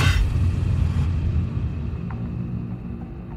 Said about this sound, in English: The tape is in the machine. The stories are ready. So let's press play.